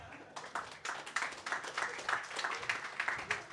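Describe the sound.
Audience clapping for a guest emcee at a readers' night. After a brief quieter moment, many sharp individual claps come in and continue in a lively, uneven patter.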